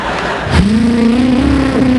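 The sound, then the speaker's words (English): A car engine revs hard as it is driven fast, its loud tone jumping up sharply, then holding high and climbing slowly, with no talking. “What the hell are you driving like a maniac for? I'm trying to outrun the fight.”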